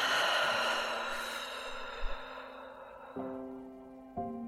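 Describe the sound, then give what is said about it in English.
A slow guided breath during a calming exercise: one long, audible exhale fades gradually over about three seconds, then soft sustained musical notes take over. “using your breath to slow down, inhaling through your nose, exhale out the mouth.”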